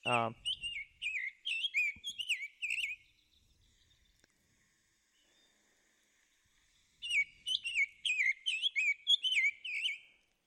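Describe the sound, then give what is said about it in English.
Recorded bird calls played back from a phone app, from a bird that migrates into northern South America: two bursts of many rapid, high, whistled chirps, separated by several seconds of near silence. “And then the cool thing is it can play the sounds that that bird makes. And so you might be able to hear this”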